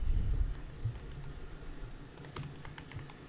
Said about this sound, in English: You type in both their names.